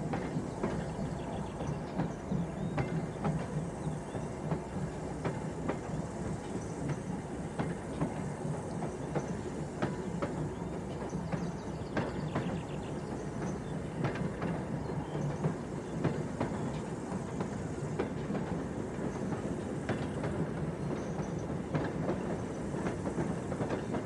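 A train hauled by a locomotive picks up speed on rails, giving a dense, continuous rumble with faint repeated clicking and no voices.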